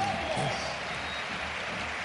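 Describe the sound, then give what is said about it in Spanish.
A stadium crowd at a football match gives an ovation for a substituted player, a dense, steady roar of applause and cheering with a voice briefly over it at the start. “Ovación para Ocampos, como no puede ser de otra forma.”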